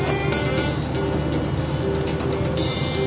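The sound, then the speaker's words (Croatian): A car on an uncomfortable drive in a radio drama: a loud, steady engine and road drone that holds evenly from start to finish, with no voices. “Pozdravimo sada društvo Filipu u njegovoj neugodnoj vožnji automobilom.”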